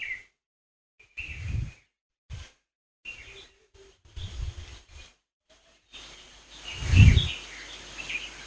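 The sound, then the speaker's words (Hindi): Faint chirps of birds singing in short streaks, set among intermittent low rumbling bursts and otherwise near-quiet stretches. “वापस सारा ध्यान पक्षियों की आवाज की तरफ,”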